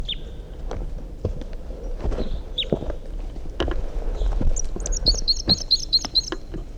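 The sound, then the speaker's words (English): Wild bird song: a few brief, high chirps early on, then a quick run of repeated high notes near the end, over a low rustling bed with scattered soft thuds. “In flight. Wild bird song phrase. Stop. No, that's a wild bird still.”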